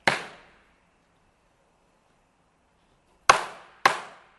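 A kōdan storyteller makes sharp percussive strikes: one crisp crack, a long silence, then two more in quick succession. Each strike is loud and decays quickly.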